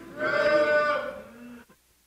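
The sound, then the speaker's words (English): People at a Bible lesson voice an imitation of a cow's moo together: one sustained, droning hum that holds, tails off and then cuts to silence. “When you get there, say moo.”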